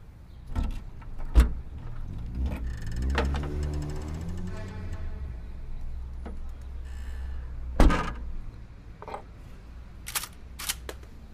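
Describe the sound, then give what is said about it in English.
A car trunk is pulled open with a few mechanical clunks and clicks around a steady whirring hum, followed by a couple of sharper knocks, fairly quiet overall. “pull open the trunk.”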